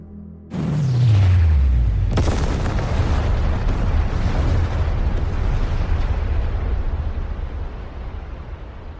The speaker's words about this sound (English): A simple one, directed to all the machines carrying thermonuclear warheads. Detonate.